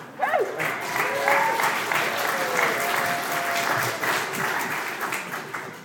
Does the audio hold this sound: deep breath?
no

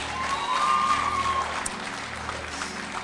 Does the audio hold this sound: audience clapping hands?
yes

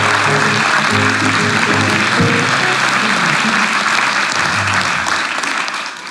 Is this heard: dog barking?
no

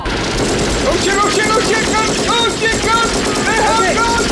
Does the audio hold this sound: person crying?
no

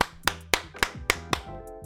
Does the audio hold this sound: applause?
yes

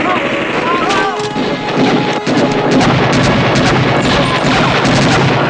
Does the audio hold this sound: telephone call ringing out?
no

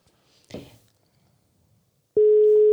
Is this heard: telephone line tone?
yes

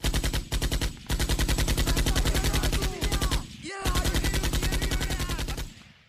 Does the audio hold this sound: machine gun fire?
yes

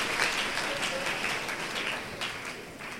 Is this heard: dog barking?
no

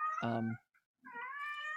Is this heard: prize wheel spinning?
no

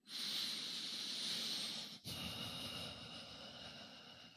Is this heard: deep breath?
yes

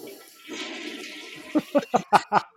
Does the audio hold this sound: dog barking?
no

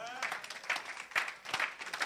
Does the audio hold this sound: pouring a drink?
no

